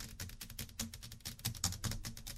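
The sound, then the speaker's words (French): A woman imitating a computer keyboard with her mouth, a rapid, irregular run of soft clicking and tapping sounds, faint and uneven in loudness, with no words spoken. “Elle était en train de me mimer le, bah vous le faire, hein. Elle était en train de me faire le clavier d'ordinateur.”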